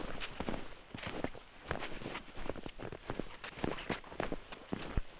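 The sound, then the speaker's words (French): Footsteps of people walking downhill on a mountain path near Gap, in the French Alps: many soft, steady steps crunching in an even rhythm at low volume, with no voices. “On peut marcher avec ça un petit peu.”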